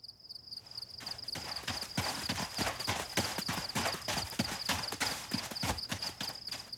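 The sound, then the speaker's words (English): Rapid clip-clop footfalls serve as a sound effect of shepherds running through the wilderness at night. Many quick, hard taps come in a fast, steady rhythm under a constant high, thin tone. “And I was wondering if she could do shepherds running through the wilderness at night.”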